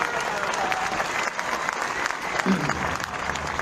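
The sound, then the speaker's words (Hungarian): Audience applause from a crowd at a live event: dense, steady clapping that fills the whole clip at an even, fairly loud level without a break. “Egy nagy tapsot, ez mindenképp megérdemel.”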